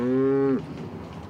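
A cow moos on a floating cattle barn in Rotterdam: one loud, low, steady moo lasting about half a second, then dropping away into a quiet background.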